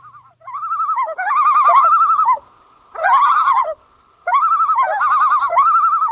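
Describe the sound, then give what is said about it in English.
A common loon calls alone in a series of wavering, tremolo wails. Three long bouts are separated by short silences, and each bout has a steady, quavering pitch. “This is the call of the common loon.”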